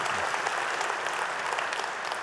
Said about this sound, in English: I just want you to put your hands together and welcome him to the stage.